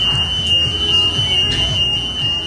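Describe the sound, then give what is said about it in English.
Alarm going off in a city centre restaurant, a continuous shrill, high-pitched tone that holds steady throughout over a low, rumbling background murmur. “The alarm's been going off now for about 10 minutes.”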